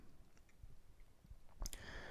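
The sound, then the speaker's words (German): Computer mouse scroll-wheel clicks: faint, soft ticking throughout, with a brief, slightly louder cluster of clicks near the end. “So, jetzt muss ich hier nebenbei nämlich scrollen.”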